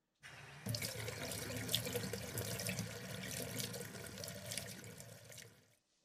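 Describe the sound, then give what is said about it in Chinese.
Bath water runs from a tap into a tub, a steady, gushing stream that starts abruptly, grows fuller after a moment, holds even and fairly faint for several seconds, then tapers off and stops, with no voices. “你稍等一下，我帮你放洗澡水。”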